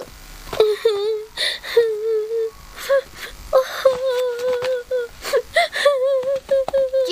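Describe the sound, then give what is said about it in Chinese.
A girl crying in short bursts of wavering, high-pitched whimpers and drawn-out wails, fairly loud, with brief breaks between sobs. “姐姐，你哭了，谁欺负你了？”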